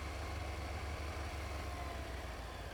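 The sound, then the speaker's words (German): A car drives over a bridge toward San Carlo. A faint, steady engine drone with a low rumble continues evenly throughout. “fahren wir jetzt nach San Carlo über diese wunderschöne Brücke.”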